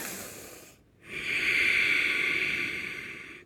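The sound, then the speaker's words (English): A slow, deliberately loud breath, made to catch the attention of fussing babies: one long, steady, airy hiss lasting over two seconds after a brief quiet gap, with no talk. “And I would take a slow but very loud breath, a loud breath on purpose.”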